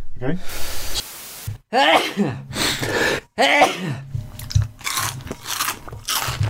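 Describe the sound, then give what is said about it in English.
Crunching bites into an onion crisp: a few sharp, crackling bursts separated by brief pauses, with voiced vocal sounds mixed in among them. “Good Foley sounds for you. An onion crisp.”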